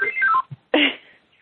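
A telephone rings with a short run of descending electronic tones, followed by a second brief, brighter burst.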